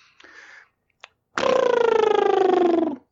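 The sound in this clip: A voice imitating the Jetsons space sound effect. After a brief, fainter vocal sound comes a loud, sustained, buzzy warble that pulses rapidly and slides slowly downward in pitch for about a second and a half.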